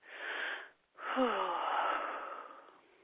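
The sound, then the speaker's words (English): A big, deep breath drawn for relaxation sounds soft and airy. A first breath gives way to a brief pause, then a longer, fuller breath that slowly fades. “And one last big breath to solidify this.”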